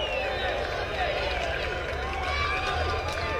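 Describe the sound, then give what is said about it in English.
Baseball fans make a steady roar of crowd noise with the count at one ball and two strikes, a dense, even wash of voices and babble throughout. “And the count's 1-2, and the fans start to bring some more noise.”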